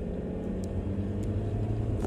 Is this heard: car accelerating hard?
yes

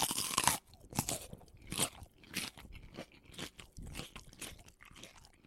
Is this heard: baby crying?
no

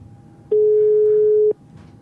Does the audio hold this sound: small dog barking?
no

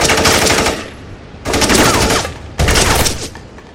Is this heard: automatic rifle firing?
yes

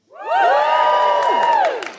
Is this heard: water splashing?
no

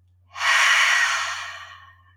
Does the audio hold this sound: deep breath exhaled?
yes

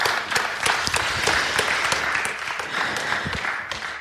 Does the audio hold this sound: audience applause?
yes

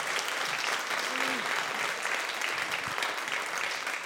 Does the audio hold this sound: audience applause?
yes

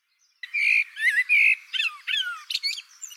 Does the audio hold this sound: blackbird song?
yes

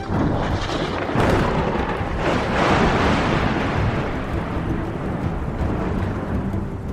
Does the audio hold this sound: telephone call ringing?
no

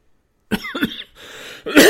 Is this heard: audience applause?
no

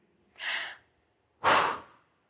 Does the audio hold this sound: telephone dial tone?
no

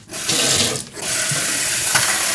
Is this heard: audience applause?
no

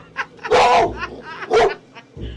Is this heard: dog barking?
yes

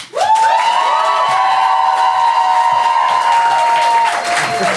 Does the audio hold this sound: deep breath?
no

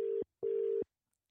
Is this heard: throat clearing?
no

